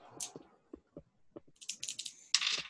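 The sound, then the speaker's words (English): Dice rolled during a tabletop role-playing game: a few faint separate clicks, then a quick, clattering rattle that ends in a brief louder burst. “I rolled dice and you guys freaked out?”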